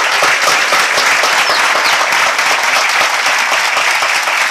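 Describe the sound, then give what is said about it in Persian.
Audience applauding, a dense, loud and even wash of clapping that carries on without pause. “پس به افتخار خودتون دست بزنید.”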